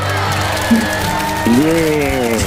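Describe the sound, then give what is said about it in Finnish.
Crowd applause and cheering with high whoops rising over a steady roar, at a fairly loud level, swelling briefly twice. “Ootko tänään saanut vielä näin isoja aplodeja?”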